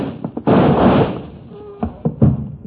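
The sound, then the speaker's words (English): A door being opened: a couple of soft knocks, then a loud rough rush of scraping noise lasting about half a second, followed by a few dull thumps. “Now open the door so we have some luck.”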